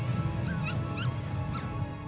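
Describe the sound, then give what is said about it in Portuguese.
A dog whimpers in a few short, high, wavering whines over a steady low hum. “O cão.”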